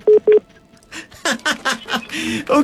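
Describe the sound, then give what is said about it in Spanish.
A telephone call-waiting tone during a radio phone-in: two short, even beeps at the start, then a person talking. “Creo que tenemos otra llamada ahí tratando de entrar.”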